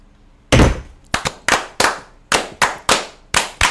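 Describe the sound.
Muskets fire on command in a ragged volley: a heavy opening blast, then a series of sharp cracking reports, each with a short decaying tail, with no voices over them.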